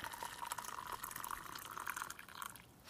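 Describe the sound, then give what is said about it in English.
Boiling water, rested for a couple of minutes, is poured over oolong tea in a steady, faint trickle and splash that runs almost the whole time and thins out near the end. “So here is our oolong tea, and this is boiling water, rested for a couple of minutes”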